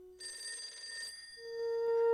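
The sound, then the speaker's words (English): A telephone bell rings in a bedroom, a bright, fast trill lasting just under a second. A steady, louder tone follows and grows toward the end. “While her phone rings, Teresa”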